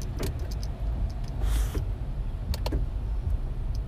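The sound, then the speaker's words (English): A car drives on highway 294, giving a steady, loud low rumble of road and engine noise throughout, with a few brief higher ticks and clicks over it and no talk. “So I'm driving. I'm out here. I'm on 294.”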